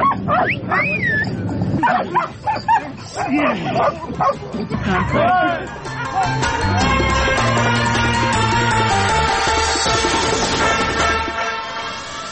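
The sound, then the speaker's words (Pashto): Dogs being trained for mine detection at a UN centre in Kabul yip, whimper and bark in short, high, wavering bursts, with many calls overlapping a steady murmur of voices and background noise. “د ملګرو ملتونو په یو مرکز کې په کابل کې 200 سپي د ماینونو د پلټنې لپاره روزل کیږي. د مرکز ته مو هم ورولو.”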